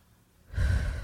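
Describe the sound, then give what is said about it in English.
A deep breath taken in and let out during a breathing exercise: a faint intake followed by a louder, breathy exhale that rushes out like a sigh and trails off. “So, let your mouth open. Take a deep breath into your lungs and release it. Like that. Just do a few of those.”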